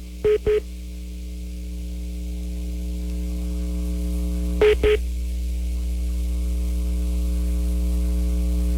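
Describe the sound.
Telephone tones sound as a three-way call is dialed and connected: two pairs of brief beeps, several seconds apart, over a steady line hum.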